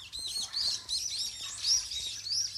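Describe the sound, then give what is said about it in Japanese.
Many small birds chirp and tweet during a morning walk. Their high, bright calls overlap in quick, continuous bursts over a faint low rumble. “めっちゃチュンチュンなってる”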